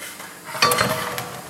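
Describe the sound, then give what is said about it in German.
Sand poured into the hopper of a concrete mixer while mixing concrete: a gritty, rushing rattle that starts abruptly partway through and continues steadily at moderate loudness, with no talk. “Genau, der Sand kommt in den Einfülltrichter.”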